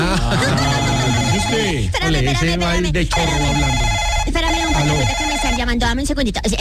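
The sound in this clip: A telephone rings with a melodic, tonal ringtone that plays on continuously, its notes shifting in pitch throughout.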